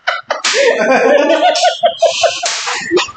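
A flogger strikes a person's upper back, landing a few sharp slaps that cut through a loud vocal cry.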